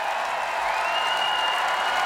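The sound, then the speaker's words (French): A festival crowd of 40,000 at a concert cheers and applauds in a continuous roar of clapping and voices, with a high whistle gliding through the middle. “Ah oui, le public acclame. Ah, vous entendez, c'est ça, 40 000 personnes.”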